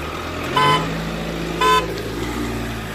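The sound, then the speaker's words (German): A car towing a trailer loaded with tools drives past, honking two short toots about a second apart over a steady engine rumble. “fährt gerade unsere Nachbar Matze vorbei.”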